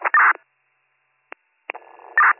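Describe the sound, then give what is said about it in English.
Telephone keypad tones sound as a number is dialed for a call, with a few short, thin beeps separated by silent gaps and a tiny click in between. “Let me make a phone call.”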